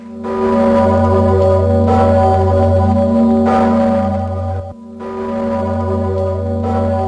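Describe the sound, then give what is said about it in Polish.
A large 500-year-old church bell tolling in Kraków: loud, deep strikes, each followed by a sustained humming ring that overlaps the next, with a brief break before the bell sounds again. “Mija dokładnie 500 lat, odkąd krakowianie po raz pierwszy usłyszeli głos dzwonu Zygmunt.”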